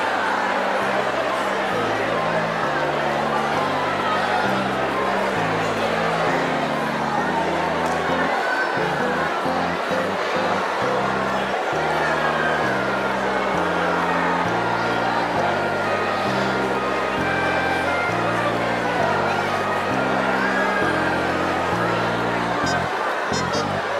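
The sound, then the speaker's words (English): A large audience acts out a family reunion, hugging and welcoming one another, producing a continuous wash of overlapping chatter from many voices that stays steady and lively throughout. “So for the next 30 seconds, ready, set, go, family reunion, hugging people, welcoming people.”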